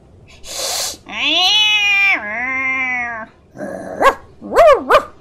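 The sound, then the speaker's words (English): Dog barks, a few short sharp yelps near the end, follow a breathy burst and a long, drawn-out wailing cry; no talk is heard. “An odd familiar bark suddenly enters the scene, catching your ears. You did not own a dog.”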